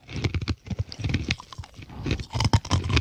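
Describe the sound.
Crunching of large macadamia nuts being chewed, with many sharp, irregular crackling bites and grinding sounds following one another closely, moderately loud.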